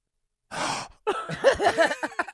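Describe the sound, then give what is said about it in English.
A man's voice imitates a gasp: a short, breathy intake of air after a moment of silence, then a run of wavering voiced sounds. “He gasped.”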